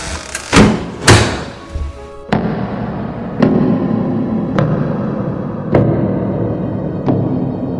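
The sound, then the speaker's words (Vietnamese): A door closing and footsteps: a cluster of loud, sharp thuds near the start, then slower, evenly spaced knocks over a steady low background rumble. “thấp thoáng nghe thấy tiếng đóng cửa và tiếng chân bước.”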